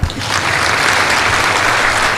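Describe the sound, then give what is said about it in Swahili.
Crowd applause fills the whole clip as a loud, steady wash of clapping that keeps an even level from start to finish. “Makofi.”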